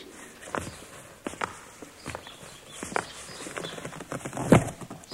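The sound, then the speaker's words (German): Footsteps go up a staircase as a series of soft, irregular footfalls, fairly faint, with one louder thud near the end. “Jetzt gehen die wohl die Treppe rauf.”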